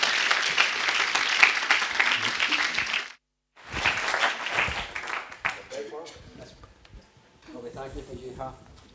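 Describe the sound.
Audience applause welcoming a guest speaker at an evening church gathering: a loud, dense burst of clapping, a brief pause, then a second wave that fades out as a man starts talking.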